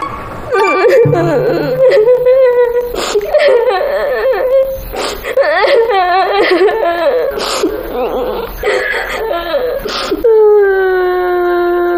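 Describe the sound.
A child cries and sobs before a group haircut, a high, wavering, tearful voice that carries on almost without a break and settles into a steadier drawn-out wail at the end.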